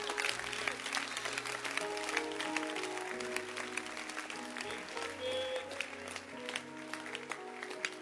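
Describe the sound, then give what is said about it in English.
A church audience clapping their hands in a faint, continuous patter over sustained musical tones, with no clear breaks. “Can you clap your hands?”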